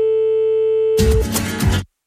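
A telephone ringback tone as a radio show calls a listener back: one steady, pure electronic tone held for over a second, then a short burst of busier sound before the line goes silent.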